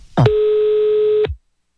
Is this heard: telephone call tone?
yes